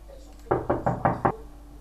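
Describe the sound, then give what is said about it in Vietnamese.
Five quick, firm knocks on a closed inner room door, evenly spaced and loud against a quiet background, with no voices. “Cửa phòng đóng chặt và Phó Viễn bắt đầu gõ cửa.”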